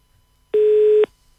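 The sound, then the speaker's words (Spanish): A telephone tone as a call cuts off: a single loud, steady electronic beep about half a second long, standing alone against near silence. “se nos cortó allí la llamada con la senadora Lilian”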